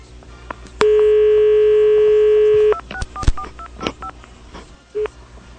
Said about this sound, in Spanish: Llamamos una y otra vez y no nos contestó.